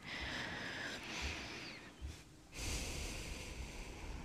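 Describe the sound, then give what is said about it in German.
A slow deep breath: a long, airy, hissing inhale, a brief pause, then an equally long breathy exhale, soft and steady with no talking. “Wenn du magst, atme nochmal tief.”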